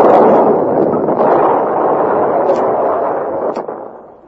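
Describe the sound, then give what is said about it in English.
A bomb explodes inside a Wurlitzer organ with a deep, roaring blast that rolls on as a sustained heavy rumble, then fades away at the end. “did you remember to put the bomb in?”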